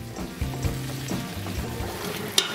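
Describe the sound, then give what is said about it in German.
Bacon rendering and vegetables such as leek and potatoes frying together in a pan, giving a steady crackling sizzle broken by a few soft stirring knocks and one sharper clack near the end. “Der Speck wird ausgelassen, dann kommt das Gemüse ins Spiel.”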